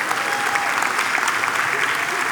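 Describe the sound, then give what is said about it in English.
A church audience gives a hand clap for fathers on Father's Day, a loud, dense burst of applause from many people that stays continuous and even from start to finish. “Let's give a hand clap to all our dads.”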